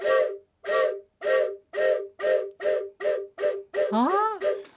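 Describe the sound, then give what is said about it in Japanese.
A toy whistle with four pipes sounding at once, made by a whistle manufacturer, imitates a steam locomotive: about nine evenly spaced, chord-like toots form a chugging rhythm, and one longer toot near the end slides upward in pitch. “ホイッスルの専門メーカーが作った、はい、あの音を楽しむおもちゃでしてね、ちょっと音鳴らしましょうか。はい、 はい、機関車。”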